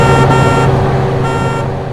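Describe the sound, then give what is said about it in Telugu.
A city bus arrives and stops with a loud, heavy engine drone and a tonal whine running throughout, easing off slightly at the end. “ఇంతలో బిర్లాగారి ఇనపెట్టెలా ఉన్న city bus Peyton ట్యాంకులా శబ్దం చేస్తూ వచ్చి ఆగింది”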